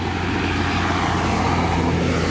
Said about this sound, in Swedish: Nu kommer en av Ölands alla traktorer här.